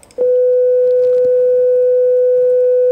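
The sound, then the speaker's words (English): A pure sine wave tone starts after a brief quiet moment and then holds steady at one unchanging mid pitch, loud, smooth and alone until the end. “If you take a mathematically simple sound like a sine wave, which sounds like this,”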